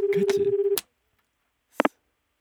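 Electronic telephone tones signal an incoming call. A steady, pulsing tone lasts under a second, and after a pause come two quick, sharp beeps with no voices.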